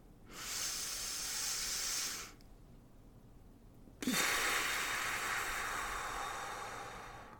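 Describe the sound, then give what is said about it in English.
Slow, deep breathing, inhaling and exhaling: two long, airy, hissing breaths separated by a short pause, the second trailing off gradually. It is soft and heard alone, without speech. “Please take 5 deep breaths with me. Inhale for a count of 3 and exhale for a count of 3.”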